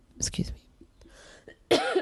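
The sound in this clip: Coughing and throat clearing: a couple of rough, breathy bursts separated by quieter throaty rasping, at moderate loudness.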